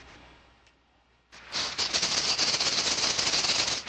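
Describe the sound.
Five dice rolled for a Hollow Earth Expedition tabletop role-playing game: a sudden, dense clatter of many rapid clicks and rattles that starts abruptly and keeps going steadily to the end.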